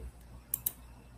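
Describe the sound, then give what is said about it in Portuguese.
Two faint, sharp computer mouse clicks in quick succession over low background noise. “Hoje está travando aqui o negócio. Estou clicando e não está passando.”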